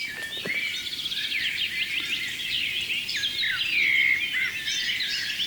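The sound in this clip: Common blackbird song: a continuous run of bright, high warbling whistles and trills, fairly loud and unbroken, with no voices.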